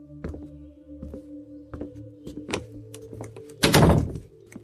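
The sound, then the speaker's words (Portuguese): A door is being closed: a few light knocks and clicks over a steady low hum, building to a heavier thud near the end, with no voices. “Ele acompanha vocês até a porta e ele fecha a porta.”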